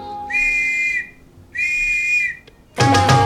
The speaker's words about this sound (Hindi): पूरे एक बजे सीटी बज जाने